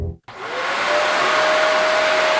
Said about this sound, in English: The vacuum cleaner suction whooshed the fruit flies away into instant oblivion.